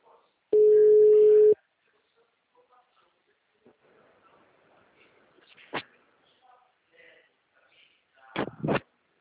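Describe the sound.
Telephone ringing tone during an outgoing call: one steady low tone lasting about a second, followed by near quiet with faint clicks and a few sharp knocks.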